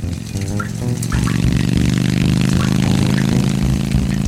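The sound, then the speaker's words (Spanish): A motorcycle engine roars with a dense, rumbling drone, swelling louder over the first second and a half and then holding a loud, steady, rough growl to the end. “¿Por aquí va a pasar esa moto?”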